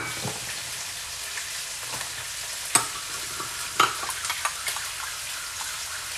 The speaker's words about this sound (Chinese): 好，然后给他们搅拌一下。